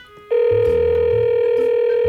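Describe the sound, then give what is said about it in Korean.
Telephone ringback tone while calling a friend who does not pick up: a loud, steady electronic tone that begins after a brief quiet moment and holds without a break. “통화 연결음이 두 번 들을 때까진 그래도 괜찮은데요. 세 번째에서는 느낌이 옵니다.”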